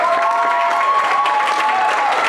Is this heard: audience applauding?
yes